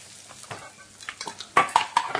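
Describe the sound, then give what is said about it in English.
Canned food from a freshly opened tin is tipped into a saucepan: a run of clattering, scraping metallic knocks and slops that grow louder and sharper toward the end, with no voices. “Press down so the spike pierces the lid, then turn the handle. Hey! Now tip them in the saucepan.”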